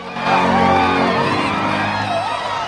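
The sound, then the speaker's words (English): Kids in the stands whoop and cheer during a game's closing seconds, a sustained crowd roar of raised voices with a few louder yells rising above it. “Guy and the rest of the popular kids applaud from the stands.”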